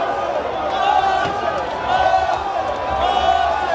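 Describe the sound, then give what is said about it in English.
Arsenal fans cheering and shouting at an open-top bus football victory parade, with fireworks and pink smoke. A steady, dense crowd roar of mingled voices holds throughout with no break. “There's been fireworks and pink smoke, and everyone is cheering.”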